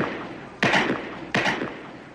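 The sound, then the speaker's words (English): Pistol gunshots from guards on a firing range: two sharp cracks, each with a short decaying tail, less than a second apart. “Those are guards on the pistol range.”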